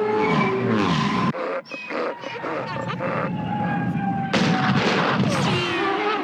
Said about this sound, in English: They do give you a nice isolated sound of the Tusken Raiders shooting at the pods.